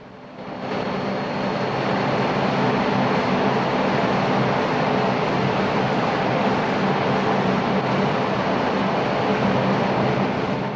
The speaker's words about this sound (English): Boiler room machinery fills a huge chamber.